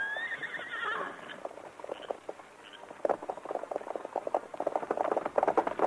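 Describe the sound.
Two horses are heard: one whinnies at the start, and then a dense, uneven clatter of hooves and stamping follows, growing louder toward the end.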